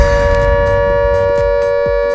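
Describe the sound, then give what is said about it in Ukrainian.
An air raid siren sounds as a loud, continuous tone held at a steady pitch, with low thumping pulses underneath. “Увага всім, повітряна тривога. Прослідуйте до найближчого укриття.”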